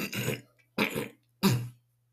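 A person clears their throat and coughs three times in a row: short, rasping, voiced bursts separated by brief silent pauses, the last one the loudest.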